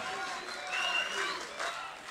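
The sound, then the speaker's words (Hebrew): A studio audience applauds after a singing performance, a faint, steady wash of clapping that rises in a few gentle surges, with voices talking over it. “איפה מחיאות כפיים?”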